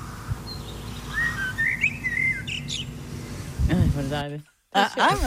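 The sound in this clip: A blackbird whistles short, fluty rising and falling phrases of a pop song melody over a steady background hiss. The song is fairly faint, and voices begin talking near the end.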